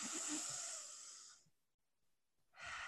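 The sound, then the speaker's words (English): A deep breath drawn in: a loud, airy rush lasting over a second. It fades into a quiet pause, then another breathy rush begins. “So on the count of three, everybody, let's take in that deep breath. 1, 2, 3.”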